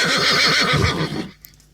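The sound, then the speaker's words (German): A horse whinnies loudly with a wavering, shaking pitch that breaks off after about a second and a quarter, leaving near silence. “Ich glaube, mein Pferd hat noch Durst. Ich muss ihm, glaube ich, noch was zu trinken bringen.”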